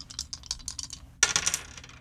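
Dice rattle and roll in a board game: a run of quick, light clicks as they are shaken, then a sharper clatter as they land and bounce several times, fairly quiet overall.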